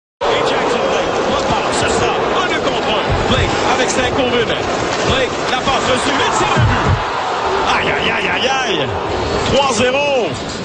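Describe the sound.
An ice hockey arena crowd roars after a third goal in a quick series of goals. The loud, sustained wall of cheering and shouting runs almost unbroken, with scattered whistles and yells rising out of it.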